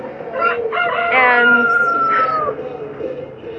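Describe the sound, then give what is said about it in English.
Show chickens cluck in short bursts, and a drawn-out crowing call rises above them. The birds are loud and close, and overlapping calls fill the whole clip. “These are show chickens.”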